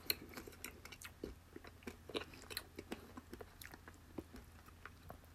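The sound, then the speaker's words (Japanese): Crunchy snack noodles in butter caramel flavour being chewed: many faint, sharp crunches and bites in an irregular, steady rhythm, with no talk. “でもなんかさ食べてくうちに癖になるとか言うからねもう一回食べてみよ”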